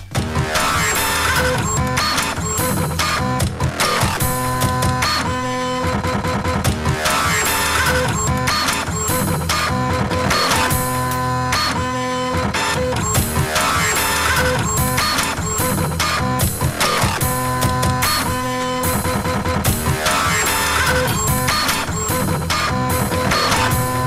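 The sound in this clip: A dubstep remix plays loud and dense throughout, with a steady driving rhythm, heavy bass and mechanical, printer-like whirring and clicking woven into the beat.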